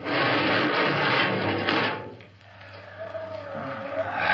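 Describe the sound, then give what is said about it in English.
Radio drama sound effect of a spaceship airlock opening: a loud, broad rush of hissing air for about two seconds that drops away, then a low rumble and a faint tone take over. “All right, Park, you. Open the airlock. Aye, sir.”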